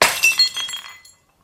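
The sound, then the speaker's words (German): A glass is dropped and shatters: one sharp crash, then bright tinkling fragments that scatter and fade out within about a second, with no voices. “Du hast das Glas fallen lassen. Du Lügner. Du hast das Glas zerschlagen.”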